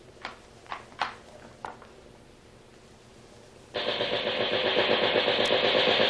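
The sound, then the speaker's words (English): A machine gun being test-fired aboard a schooner: a few sharp clicks and knocks come first, then a long, loud, sustained burst of rapid fire rattles on steadily to the end. “Man the machine gun, Halton. Give it a test to make sure it's in order.”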